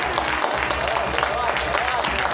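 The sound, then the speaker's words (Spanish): An audience applauds as musicians come on stage, with busy, continuous clapping under voices that talk throughout. “Che, ahora les pido que redoblen el aplauso porque está con nosotros Nati Batista, Los Comunes.”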